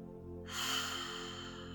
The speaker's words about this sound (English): And now, taking another deep breath, breathe with me.